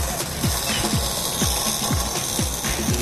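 A car jack ratchets up during a timed team build, with a steady run of six sharp mechanical clicks at an even pace of about two per second over busy background noise.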